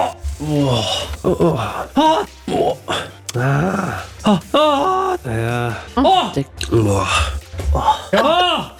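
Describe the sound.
A man groaning repeatedly while watching a football match against Argentina at a public viewing: many loud, strained vocal moans and gasps in bursts separated by short pauses.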